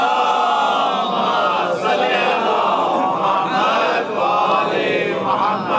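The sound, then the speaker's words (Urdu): A religious gathering loudly recites salawat together, many voices chanting in a dense, continuous mass with gentle swells and dips. “آپ لوگ زور سے صلوات بھیجئے تاکہ ادھر ادھر سے جو آوازیں آ رہی ہیں وہ ذرا دخل در معقولات نہ کریں.”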